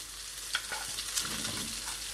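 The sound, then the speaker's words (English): Scallions and green beans sizzle as they go into a hot frying pan and are stirred, a steady moderate hiss broken by a few light scraping clicks. No one speaks. “I am now going to add my scallions or spring onions and my green beans,”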